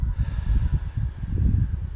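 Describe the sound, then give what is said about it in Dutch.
Slow breathing out during a guided relaxation exercise: a steady, breathy hiss with a soft low rumble that lasts the whole clip, with no talking over it. “Adem in, vasthouden en weer loslaten.”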